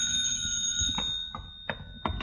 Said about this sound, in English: the telephone rang